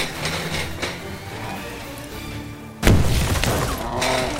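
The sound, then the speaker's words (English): A pipe bomb goes off in an audio drama: a single sudden, loud blast cuts in partway through after quieter, tonal sound and leaves a broad, noisy tail to the end. “Light it, Saul! Light that pipe bomb! I think this is our last one! Well, then make it count! Put it right at its feet! Get down!”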